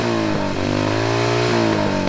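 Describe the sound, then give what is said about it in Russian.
Motorcycle engine roaring loudly and steadily, a thick harmonic drone that shifts slightly in pitch as the throttle changes, with no voices. “и в этот момент мотоцикл ужасно взревел, вырвался из-под Тузика”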